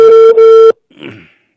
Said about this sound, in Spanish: ¿Me cortó la llamada? Yo me he identificado. A ver, nuevamente. O está ocupadísimo. ¡Cortó la llamada!